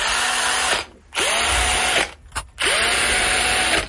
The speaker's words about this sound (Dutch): Mijn elektrische schroevendraaier. Ja, dat is een heel herkenbaar geluid.